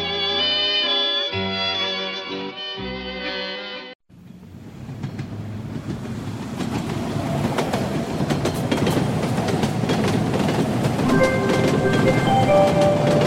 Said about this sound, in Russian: Электричка мчится дальше, спеша достать последнюю на сегодня порцию дачников.